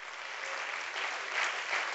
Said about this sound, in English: Let's clap our hands to the Lord.